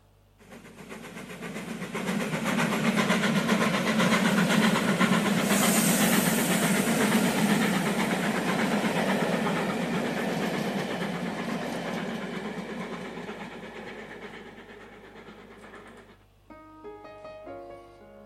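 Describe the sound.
Train sound effect for a show's train carriage: a loud, steady steam hiss with fast rhythmic chugging swells in, holds for a long stretch, then fades, and a few piano notes follow at the end.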